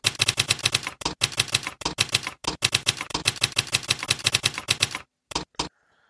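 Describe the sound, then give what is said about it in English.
Someone types a password on a keyboard: many rapid, crisp keystrokes in steady bursts, broken by a few short pauses. The typing stops, and two isolated key presses follow in near silence. “So I'm going to type my master password.”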